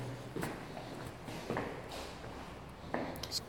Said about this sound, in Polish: Dobra, trzeba zejść ze schodów. Schody są, proszę Państwa, teraz przechodzę jeszcze